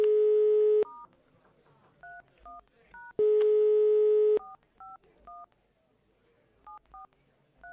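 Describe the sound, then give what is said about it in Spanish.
Telephone number being dialed: a steady dial tone, then a series of short touch-tone beeps, a second stretch of dial tone, and many more beeps in an uneven rhythm. “Voy a llamar a alguien que nunca llamé, a un cazador.”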